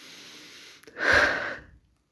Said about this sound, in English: let's take a breath